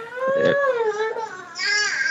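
A newborn baby cries in wavering, high-pitched wails, one long cry and then after a brief gap a second shorter one.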